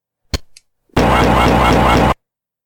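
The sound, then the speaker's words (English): A plasma rifle from the video game Doom fires as one sustained, harsh electric buzz lasting just over a second, with a steady pulsing texture. Two short clicks come before it, and silence follows. “Plasma rifle.”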